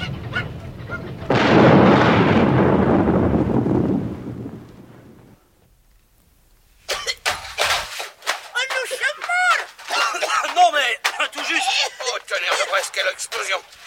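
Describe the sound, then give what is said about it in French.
Practice firecrackers explode: a loud, roaring blast, a brief lull, then many sharp, rapid cracks and pops in an irregular burst. “excusez-moi, je ne pensais plus à ces maudits pétards d'exercice.”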